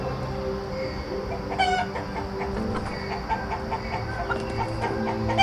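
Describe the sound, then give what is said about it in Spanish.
Farm hens cluck softly and intermittently, a mix of low murmuring clucks and a few brighter calls, over a steady, quiet background. “Visualiza que se acercan a ti varias gallinas mirando el suelo en busca de cualquier cosa”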